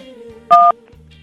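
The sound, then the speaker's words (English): Telephone keypad tone as a number key is pressed: one short, steady dual-pitched beep, loud and clean against a quiet background. “Now, you press one for Hawaii, two for New York, or three for Florida.”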